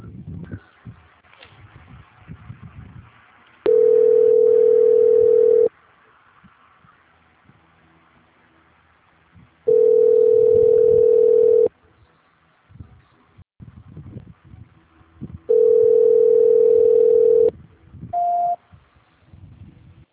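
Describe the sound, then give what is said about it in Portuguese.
A telephone line tone plays while a call is being transferred: three steady, medium-pitched tones of about two seconds each with long pauses between them, then a brief higher beep, over faint rustling background noise. “Só um minuto, por favor, que eu vou transferir a ligação.”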